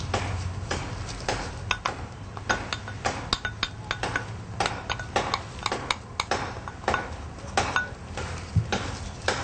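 Chopped barbecued pork is added to a bowl and mixed in. Many quick, irregular clinks and scrapes of a utensil against the bowl run throughout, over a low steady background, with no talking.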